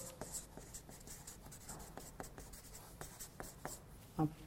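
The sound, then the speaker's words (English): A pen scratches across paper while drawing a dollar sign, making many quick, soft strokes in an uneven rhythm, with one louder scrape near the end. “I'll draw the dollar sign.”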